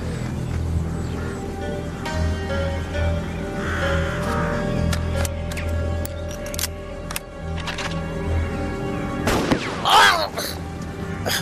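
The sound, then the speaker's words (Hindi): A single sharp gunshot-like bang bursts out near the end over a steady low background rumble, with a few faint clicks scattered earlier. “गोली चलाई किसी ने?”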